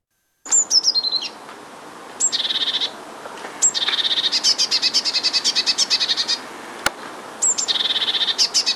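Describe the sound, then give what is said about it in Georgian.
Great tit song: bright, high-pitched notes repeated in quick rhythmic bursts, several phrases separated by short pauses, with no voices. “დიდი წივწივა ბეღურასნაირთა რიგის ჩიტია. მას და მონათესავე სახეობებს საქართველოში ბევრს ნახავთ და ალბათ ხშირადაც გაგიგიათ მისი გალობა.”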